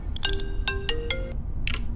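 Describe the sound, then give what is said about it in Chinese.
A mobile phone ringtone plays a short electronic melody of clear stepped tones, with a few brief bright clicks mixed in. It is fairly loud over a soft background hiss, and no one speaks. “他的手机突然响了起来，他吓了一跳”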